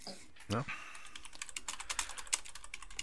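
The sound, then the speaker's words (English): Rapid keystrokes on a computer keyboard as someone types while looking something up, with many fast, uneven clicks and one louder thump near the start, steady and fairly quiet throughout. “How are you typing?”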